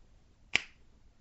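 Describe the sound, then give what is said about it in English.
One crisp finger snap beside a bed, a single sharp click that rings briefly against near silence. “how long before I reach down beside the bed and snap my fingers”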